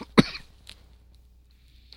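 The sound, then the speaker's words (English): A person with a wheezy chest coughs once, loud and sharp, followed by a few faint throat and breath sounds, with no talk. “So I apologize for the coughs.”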